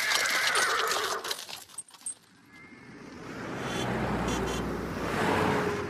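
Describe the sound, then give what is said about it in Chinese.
A horse pulling a cart whinnies amid clip-clopping hooves, then the sound gives way to a steady, rushing rumble that swells and lingers. “进城以后，刘老汉把马车赶进了马车店。”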